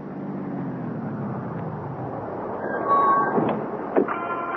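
A taxi pulls up after being hailed. Its car engine drones low and steady, the pitch sliding downward early on, with a couple of brief higher squeaks and a short thump near the end.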